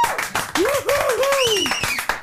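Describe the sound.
Scattered clapping from a live concert audience after a band performance, with crisp claps around a loud sustained voice calling out over them.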